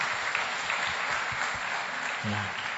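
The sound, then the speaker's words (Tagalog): A church audience applauds the Lord during a morning service, steady dense clapping throughout, with a voice briefly audible near the end. “Palakpakan nga po natin ang Panginoon sa umagang ito.”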